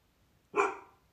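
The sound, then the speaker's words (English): A dog gives one short, sharp bark, fairly faint against near silence. “Oh, my dog is barking.”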